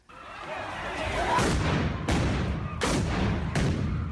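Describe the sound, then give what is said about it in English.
Police fire stun grenades at people damaging municipal property during violent protests in Tshwane, South Africa. Four sharp, loud bangs cut through a continuous rumble of noise. “Police fire stun grenades at people destroying municipal property in the city of Tshwane.”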